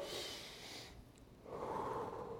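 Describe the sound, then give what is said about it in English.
A deep breath taken by a preacher during a sermon: a long, noisy inhale, a brief pause, then a loud, breathy exhale, with no talk. “God just gave me that breath.”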